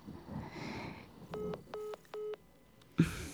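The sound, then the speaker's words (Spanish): Three evenly spaced electronic beeps of a phone line tone after a dropped call, steady in pitch over faint background hiss, followed by a short burst of noise. “se cortó la llamada”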